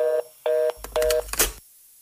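A telephone keypad sounds while a number is dialed: three steady electronic beeps at an even pace, with a brief spell of clicks and handling noise between the later tones.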